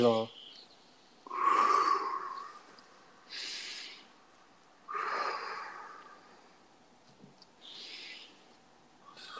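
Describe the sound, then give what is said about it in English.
Deep, slow breaths drawn in and pushed out, several long airy rushes of breathing separated by quiet pauses. “So today we're going to be doing deep breaths. I got it. This feels so relaxing. You have to do 3 deep breaths.”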